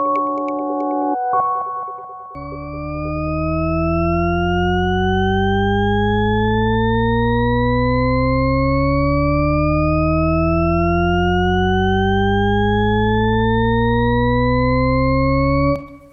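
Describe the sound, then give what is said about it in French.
Shepard tone auditory illusion: a brief steady chord gives way to a stack of sustained tones gliding steadily upward together, creating a loud, continuous sense of endlessly rising pitch for over ten seconds. “Ce que vous venez d'entendre s'appelle la gamme de Shepard, en anglais le Shepard Tone, pour ceux qui voudraient le réécouter. Vous avez eu l'impression d'avoir une note qui monte jusqu'à l'infini.”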